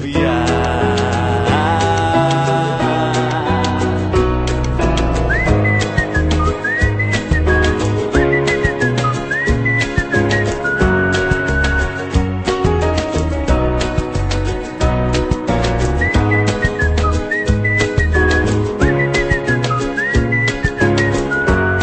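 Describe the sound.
A whistled tune carries a melody over dense, steady music, with bright whistled phrases returning several times through the song.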